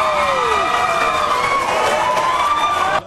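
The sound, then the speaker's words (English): A boisterous audience at a Rhode Island governor's debate cheers and shouts, loud and continuous for about three seconds, with shrill gliding voices on top, before it cuts off abruptly. “Boisterous audience there at some point.”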